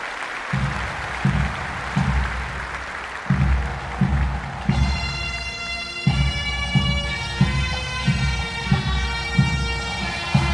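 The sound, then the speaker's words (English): Applause and crowd noise for the Ballygowan Brian Boru Pipe Band at the Belfast International Tattoo 2023, over a steady, regular drum beat. About halfway through, sustained bagpipe drones and a chanter melody come in loud above the drumming. “Please welcome the Ballygowan Brian Boru Pipe Band.”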